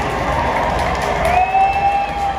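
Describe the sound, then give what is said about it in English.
Crowd booing during a pregame honoree ceremony at a Dodgers baseball stadium forms a loud, unbroken roar of many voices, and a thin whistle-like tone slides in partway through. “But let's go ahead and listen into this, guys, and you're going to hear some people booing.”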